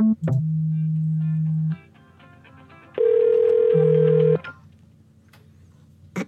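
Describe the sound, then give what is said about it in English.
An electronic telephone ringtone rings for repeated incoming calls. It comes in two long bursts of steady electronic tones separated by a quiet gap, and the second burst adds a higher tone over the lower one. “Someone's like spamming me with a bunch of phone calls right now. This is weird.”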